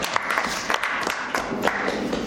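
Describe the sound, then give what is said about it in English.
Applause rises from attendees at a student government meeting, a steady patter of clapping with a few sharper individual claps standing out, holding fairly even from start to finish. “Let's give Sandy another round of applause.”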